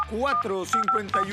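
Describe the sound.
Telephone keypad dialing tones, a few short high beeps in quick succession, sound over a person speaking in a radio ad for a car battery delivery service.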